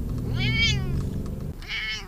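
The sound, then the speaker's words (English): A Scottish Fold cat meows from inside a crate in a car stuck in gridlock traffic. Two drawn-out, wavering meows are heard clearly over a constant low rumble from the car. “But we do have Stormy Jane McFeely, Beth's Scottish Fold cat, who hates gridlock. Stormy pounds on the crate door as I drive.”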